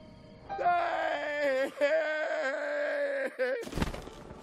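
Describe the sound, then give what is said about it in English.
An old man's voice from the Italian dub of Breath of the Wild, crying out as he flies in on a glider: long, wavering, frightened wails and moans with sliding pitch, broken by a few short gaps and ending in a noisy burst. “he has this delightful little thing he does when he flies in, and I'd like to play it now. This is in Italian. This is the Italian old man dub for Breath of the Wild.”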